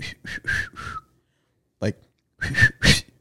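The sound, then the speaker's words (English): A voice imitates a man whistling to get someone's attention on a quiet walk: a few short, breathy whistle-like bursts, then a pause, a single brief burst, and two louder closing whistles. “like he's whistling to try to get my attention, but he's not making eye contact with me.”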